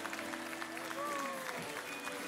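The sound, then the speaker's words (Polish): Crowd applause at a Law and Justice party election rally in Świętokrzyskie for the regional candidate list: a steady stream of clapping runs throughout beneath a speaking voice. “Ogromne brawa dla nich.”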